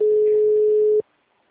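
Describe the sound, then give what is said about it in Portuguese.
A telephone call tone sounds while a number is dialed: one steady, mid-pitched electronic beep about a second long that cuts off sharply into silence. “Eu tô ligando, mas tá parado.”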